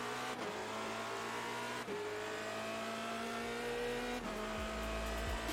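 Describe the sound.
The engine of a W Series race car lapping the Silverstone circuit and easing through a slow chicane. Its steady, high-revving note is fairly faint and dips three times as the car shifts gear or lifts off the throttle.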